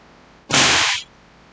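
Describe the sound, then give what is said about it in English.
A dragon-tail whip snapped at the end gives one loud, sharp crack that trails into a brief rushing hiss before cutting off, alone against a quiet background. “It's funny how a dragon lady likes a dragon tail. Let me show you something. So if you snap it just right at the end.”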